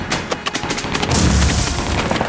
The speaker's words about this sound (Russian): Граната, ложи!